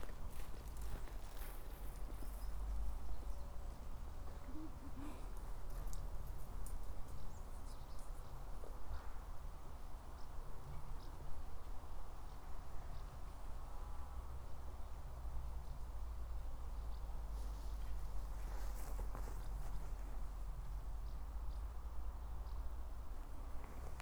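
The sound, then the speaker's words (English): Footsteps swishing through long grass along a stretch of the Blagno, heard as a steady, continuous rustle of stalks brushing past with no clearly separate steps, over a faint, even background hiss. “Walking along a stretch of the Blagno, where the grass is growing long.”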